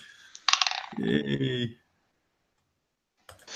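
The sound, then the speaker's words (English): Dice are rolled during a tabletop role-playing game, making a short clattering rattle of quick clicks lasting about a second. A voice briefly overlaps, then silence follows before a faint sound at the very end. “So how many dice can you roll? Only one. Okay, nice. Well, let's roll.”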